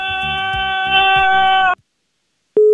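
A telephone tone after a radio call-in caller hangs up: sustained harmonic tones cut off abruptly, a short silence follows, then a single steady mid-pitched tone begins loudly and runs to the end.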